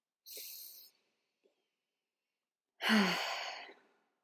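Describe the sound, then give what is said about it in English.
A deep breath in and out: a soft, airy inhale, then after a pause a longer, louder exhale that fades out gradually. “So the power of breath, like, let's do a deep breath now.”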